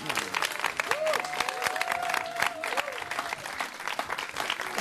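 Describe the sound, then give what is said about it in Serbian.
Enthusiastic applause from a concert audience, a loud, dense, continuous patter of many hands with a faint sustained tone and a few voices underneath. “Ogroman aplauz.”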